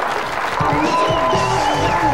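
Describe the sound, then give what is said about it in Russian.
Stormy audience applause at a stage comedy show: a dense, loud, continuous wash of clapping and crowd noise that holds steady for the whole clip. “Ваши бурные аплодисменты.”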